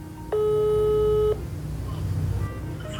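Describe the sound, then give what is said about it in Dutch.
A telephone rings while a call is placed to a grandmother: a single steady electronic tone lasting about a second, over a low background hum. “Maar eerst bel ik mijn oma.”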